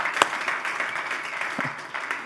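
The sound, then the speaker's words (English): Church audience at a Civic Center applauding to welcome online church members: sustained, dense clapping from a large crowd, moderately loud and continuous, with a sharp accent near the start. “All those in the room here at the Civic Center, throw your hands together. Welcome our online church family. Come on, let them know how much you love them.”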